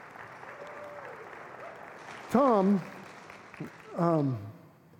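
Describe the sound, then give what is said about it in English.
Audience applause greeting a guest invited up to the front, an even wash of clapping throughout with short bursts of speech over it. “Give him a hand.”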